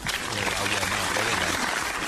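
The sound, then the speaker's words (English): A crowd claps steadily in a dense, even burst of applause, with voices heard over the clapping. “The crowd giving that a hand. They're pumped up about it.”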